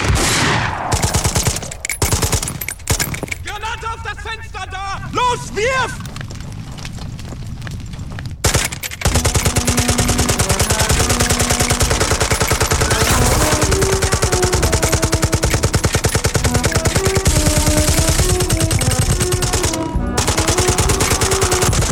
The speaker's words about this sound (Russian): А лейтенант начинает строчить из пулемета по немцам.